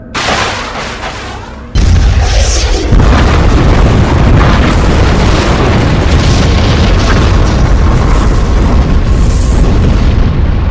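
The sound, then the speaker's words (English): A nuclear explosion booms out as a deep, loud roar that bursts in abruptly after a quieter opening, then rumbles on heavily and steadily to the end, with no voices. “In the Middle East, Israel unleashed nuclear death upon the Arab nations that surrounded them.”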